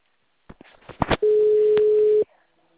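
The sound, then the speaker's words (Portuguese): While a call is being placed, a telephone gives a single long, steady ringing tone that follows a few short clicks and bumps, then cuts off cleanly. “Tô ligando agora. Tá chamando.”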